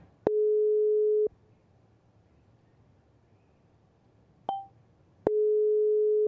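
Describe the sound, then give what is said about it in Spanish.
Telephone line tone on an unanswered call to Durango, Mexico: a steady mid-pitched beep about one second long, then a long quiet gap broken by a brief chirp, then the same beep again. “a devolver la llamada que tenía la señora Luz Victoria que me estaba llamando. Vamos a ver si nos contesta.”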